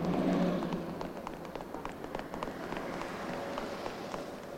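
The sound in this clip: Running footsteps as someone dashes out of an apartment building entrance in a film scene: a fast, steady patter of many steps at even loudness, with no voices.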